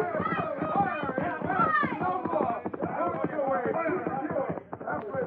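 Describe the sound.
Galloping horse hooves, a sound effect in a Western drama about General Custer, beat in a rapid, driving clip-clop under a man's shouted voice urging his horse on.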